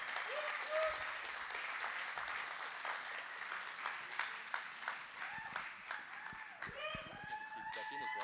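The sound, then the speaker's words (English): A church audience applauds to welcome a speaker: steady, dense clapping mixed with high whoops and scattered voices, growing livelier toward the end. “Can we put our hands together and make her feel really welcome?”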